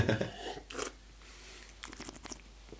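Someone sips Wiener Lager beer brewed with hops and malt, making a few quiet wet slurps and swallowing clicks alone, strongest at the start and fading to faint lip noises.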